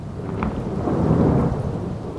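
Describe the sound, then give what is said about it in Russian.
Loud thunder rumbles heavily over steady rain during a thunderstorm, a deep rolling roar that stays strong through the whole moment with no voices. “Следом за молнией грянул гром, да с такой силой, что казалось, он расколол дом.”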